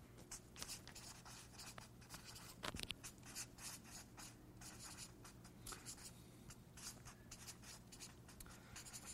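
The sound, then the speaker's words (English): Notes are written down by hand with a faint, continuous scratching of strokes in an irregular rhythm. “I'm going to write some of these down.”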